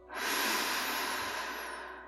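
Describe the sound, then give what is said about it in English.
One deep breath is drawn in during a guided meditation: a soft, airy rush that swells quickly, then slowly tapers over about two seconds, quiet and alone. “Deep breath in with that golden light entering our body.”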